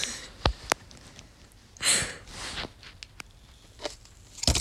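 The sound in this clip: Close-up ASMR cutting of an emoji-shaped object: a few sharp, crisp clicks and crunchy tearing bursts, separated by quiet stretches with faint rustling.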